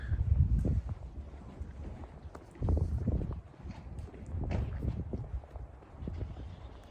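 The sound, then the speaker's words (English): Outdoor wind buffeting the microphone in low, rumbling gusts that swell and ease over several seconds, with no voices. “Sorry about the wind, guys. I'm trying to get out of it here in a second. See if I can find a less windy location here.”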